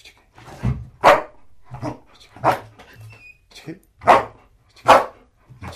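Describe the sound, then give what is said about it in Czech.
A black female German Shepherd drug-detection dog, five and a half years old, barks on command: several sharp, loud barks in an uneven rhythm, with quieter whines and human voices between them. “Takže to je asi štěkání Casinky.”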